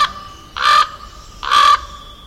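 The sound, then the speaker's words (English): Two harsh, hoarse caws from a common raven, each short and loud, spaced about a second apart over a low steady background hum. “The common raven appears in many myths.”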